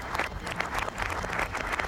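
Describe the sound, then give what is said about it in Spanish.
Applause sound effect played backwards: a dense, steady wash of many hands clapping that holds at an even, fairly loud level for the whole two seconds, with no voices on top. “Deja, pongo el aplauso al revés. A ver, el aplauso al revés, señores, por parte de Freddy. Ahí va el aplauso al revés.”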